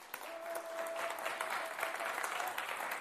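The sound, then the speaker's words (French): An audience applauds during a church worship service, producing a sustained, fairly quiet wash of clapping with scattered sharper claps throughout. “Oh, on va acclamer le nom de Jésus pour ça.”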